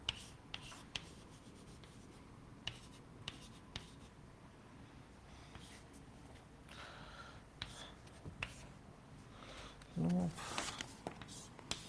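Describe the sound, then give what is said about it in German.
Faint scratchy writing strokes as someone writes something down during a lecture, soft continuous scraping broken by scattered small clicks and taps, with one brief louder burst near the end. “ich schreibe es mal hin”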